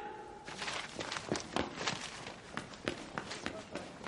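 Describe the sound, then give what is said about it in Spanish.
Footsteps of a man walking through a sunny garden with an umbrella: a steady series of soft, faint steps, with a voice speaking over them. “Hardy camina por el soleado jardín con paraguas.”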